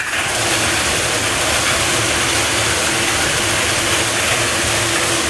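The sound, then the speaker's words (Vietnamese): Five lottery ball cages spun together for a Kiên Giang lottery draw, a continuous dense rattling whir that stays loud and even throughout, with no speech. “Tiếp theo chúng tôi quay giải 3 triệu đồng, giải này được quay 5 lồng cầu và quay 7 lần. Đây là lần quay thứ nhất, mời 5 em quay số.”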